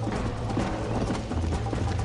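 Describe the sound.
Horse hooves clip-clop in a steady, even rhythm, the repeated hoof strikes sounding over a low, constant hum.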